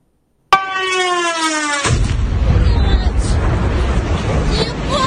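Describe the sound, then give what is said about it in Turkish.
Air raid siren in a Ukrainian city during Russian missile and drone strikes: a loud, steady wailing tone that dips slightly in pitch, then cuts abruptly into heavy, continuous rumbling noise. “Ukrayna'da birçok şehir yine siren sesleri ve patlamalarla sarsıldı.”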